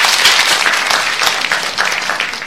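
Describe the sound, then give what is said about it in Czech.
Steady crowd applause fills the whole stretch after a greeting, a dense, continuous wash of clapping that stays fairly loud and even throughout, with no voices on top. “vyslat nejkrásnější zdravici a chci zatloskat rádu Tloskov. Bravo a děkuji.”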